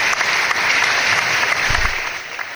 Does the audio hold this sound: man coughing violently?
no

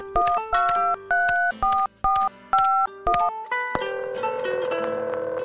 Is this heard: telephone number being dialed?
yes

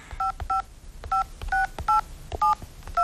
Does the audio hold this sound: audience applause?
no

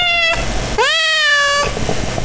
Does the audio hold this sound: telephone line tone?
no

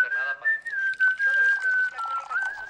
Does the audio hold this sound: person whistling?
yes

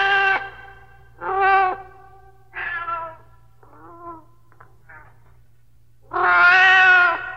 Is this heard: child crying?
no

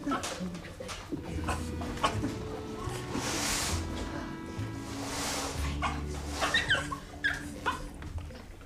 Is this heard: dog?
yes

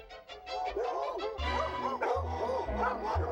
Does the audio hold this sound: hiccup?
no

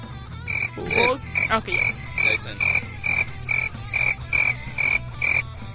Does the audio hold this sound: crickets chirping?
yes

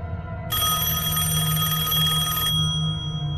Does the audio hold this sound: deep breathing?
no

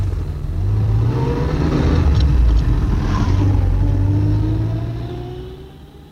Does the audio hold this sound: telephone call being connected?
no

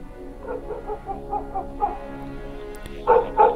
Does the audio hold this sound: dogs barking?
yes

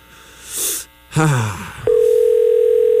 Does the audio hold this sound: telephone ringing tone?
yes

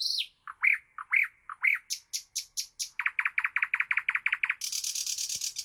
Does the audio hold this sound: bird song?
yes

